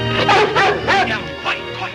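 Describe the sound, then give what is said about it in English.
A large dog barks in several loud, deep bursts that come close together across the whole moment, on a country estate as a horse-drawn buggy arrives. “A servant wearing a tunic-style shirt scolds the large dog, then runs to meet the arriving buggy.”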